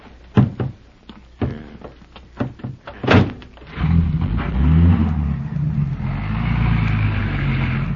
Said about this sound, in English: Well, I hope whoever left the station wagon here doesn't think it's stolen when he comes back. We haven't time to do anything but get in and drive away.